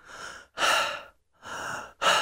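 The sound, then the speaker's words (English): A patient breathes in and out on request during a doctor's medical examination, making a few steady, clearly audible breaths with brief silent gaps between them. “Now, breathe in and out for me.”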